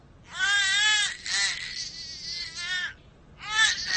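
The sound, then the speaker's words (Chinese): An infant wails in two bursts: a long, high, wavering cry with strained harmonic tones, a brief break, then a fresh outburst starting up again. “咱别哭行不行？求求你别哭了。哎呀，我的妈！这不该吃奶了？”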